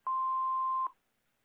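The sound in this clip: Voicemail beep: a single steady mid-pitched electronic tone lasting just under a second, clean and alone, followed by silence.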